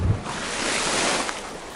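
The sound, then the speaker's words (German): Underwater crackling while scuba diving: a dense, steady fizzing crackle with a rushing, hiss-like texture that continues without a break. “Da, hört ihr dieses Geknister? Hört ihr, also ich hoffe, ihr könnt das hören, weil das ist genau das Geknister, was man hört, wenn man tauchen geht.”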